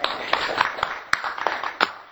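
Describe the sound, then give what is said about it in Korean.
Sparse hand claps from an audience at a talk on addiction: a handful of sharp, irregularly spaced claps rather than sustained applause. “예, 박수 드립니다.”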